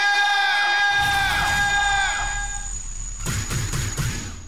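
A crowd cheers and screams loudly to open a show, joined early by a bright sustained tonal layer that fades after about two seconds, then a few sharp noisy bursts near the end.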